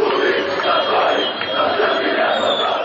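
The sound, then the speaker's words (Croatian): Football fans chant loudly after an Armenia versus Albania national team match, a massed crowd roar that stays thick and steady throughout with no pauses. “Uz osude skandiranja navijača nakon utakmice između reprezentacije Jermenije i Albanije, većina političara iz Bujanovca i Preševa ističe da ovo što čujete nije slika atmosfere i odnosa među tamošnjim stanovništvom”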